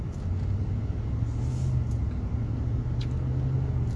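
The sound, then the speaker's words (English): Cars driving past on a highway make a continuous low rumble with a steady hiss of tyres, no single pass-by standing out and no voices. “As I look at these cars flying down the highway”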